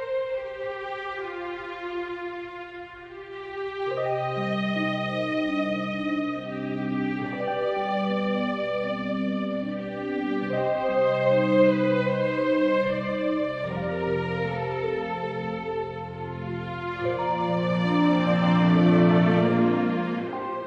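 Orchestral title theme from the score of a shocker thriller film, a slow, sustained melodic passage of layered tones whose chords shift throughout, with no voices.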